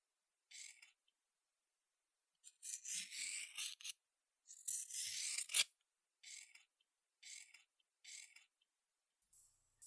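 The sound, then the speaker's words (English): Scissors cutting through a shirt: a series of crisp, rasping snips in short bursts, some grouped in quick runs and others isolated, quiet and separated by silence. “I'm just going to cut your shirt off.”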